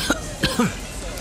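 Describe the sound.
A few short, sharp coughs in quick succession, each a brief throaty burst, the last one slightly more voiced.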